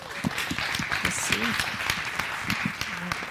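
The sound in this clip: Applause from a morning gathering welcoming a speaker: scattered, sharp hand claps of moderate loudness running under people talking.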